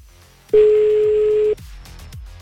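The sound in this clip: A telephone tone sounds while a number is dialed: one steady, loud, mid-pitched beep lasting about a second stands out above low background noise.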